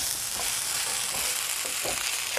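Buckwheat is stirred in a pot on a stove, a steady loud hiss with a few soft scraping strokes recurring underneath.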